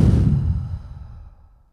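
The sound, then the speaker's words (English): A big, deep breath out: one long breathy exhale that starts full and loud, then thins and fades to nothing within about two seconds. “let's end this episode with a nice deep breath in. And a big breath out.”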